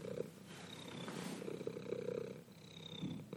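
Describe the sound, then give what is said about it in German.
A male cat purring: a soft, steady rumbling purr with a gentle rhythmic pulse that swells and eases with each breath, continuing throughout. “Der schnurrt, ne? Richtige Schnurrmaschine.”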